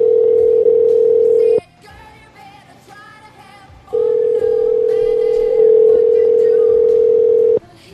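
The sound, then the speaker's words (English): A loud, steady single-pitched telephone dial tone sounds while someone places a call. It plays in two long stretches with a quieter break between them. “I'm going to hang up on Roxy and call her back, and maybe we'll get her cell. And I'm also calling this Wade guy.”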